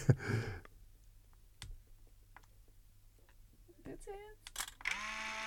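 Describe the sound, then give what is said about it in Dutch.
A Polaroid camera takes a photo: a few sharp clicks, then a loud, sustained motorized whir as the print is pushed out. “Oké. Het is gelukt. Dus altijd al, dan is eigenlijk alles al gewonnen wat ik te winnen heb. De foto is een Polaroid foto. En ik leg de beeltenis naar beneden neer.”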